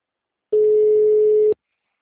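A telephone busy signal on a call to a bank's number: one steady mid-pitched tone lasting about a second, heard alone.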